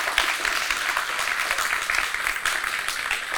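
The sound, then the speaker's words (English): Audience applause, a dense, steady wash of clapping that stays loud and even from start to finish. “Congratulations, bud. It's hard to believe. Yeah, give him a hand. He's a great guy.”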